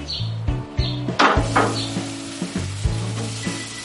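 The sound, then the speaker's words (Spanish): A cowboy steak sizzling on a grill over fire, a continuous frying hiss broken by a few sharper crackles and pops. “que es el cowboy, y vamos a hacerlo primero, a ponerlo en el asador. Que se haga la lumbre, que se haga el sabor y los olores.”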